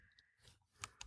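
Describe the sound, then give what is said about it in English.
A found badge gives two sharp, faint clicks a fraction of a second apart near the end, with no voices around them. “Okay, that was just my badge. That was the sound of the found badge.”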